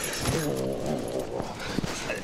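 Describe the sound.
Dogs are heard alongside a talking person, with a drawn-out whining tone early on and a few short, sharp noises near the end.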